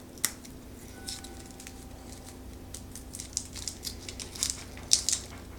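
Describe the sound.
Peeling a clove by hand, with bits of peel scattering: faint crinkly crackles and soft snaps in an irregular rhythm, a few sharper clicks standing out, with no voices.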